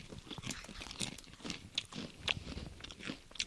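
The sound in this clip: Crunching and chewing of a dried squash snack, a foreign dried food: many quick, brittle crunches in an irregular, continuous run, fairly quiet with no talking.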